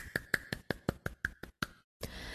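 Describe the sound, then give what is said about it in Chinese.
Nine crisp hand claps land in a quick, even rhythm and then stop, followed by a brief silence before a soft rush of noise comes in. “大大的掌声。”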